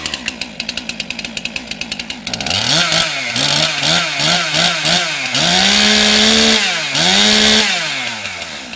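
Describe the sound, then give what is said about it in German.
A chainsaw carves a Mozart statue from a wooden log at the Bürgerbräu grounds in Würzburg. The engine first putters in rapid even pulses, then roars loud with a run of quick revving swells before settling into longer, sustained high whines. “Ein letztes Mal hallt die Motorsäge über das Bürgerbräugelände und dann steht er da. Ein Mozart für Würzburg, gesägt aus einem Holzstamm.”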